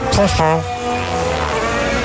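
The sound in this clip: A racing car's tyres run over the kerb, giving a short rough, rasping burst at the start, then a steady high engine whine as the car carries on down the track.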